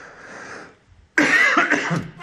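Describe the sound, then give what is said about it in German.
A short, rough cough bursts out loud and sudden after a few moments of low background hum, breaking into a couple of harsh hacks before trailing off. “Dann kann ich mal eben kurz husten.”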